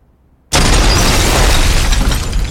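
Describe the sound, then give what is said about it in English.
A house explodes after a moment of near silence: a sudden, very loud boom hits at about half a second and becomes a sustained, rough roar of blast noise that carries on to the end. “What the heck was that? Oh, no. Number 55 has exploded.”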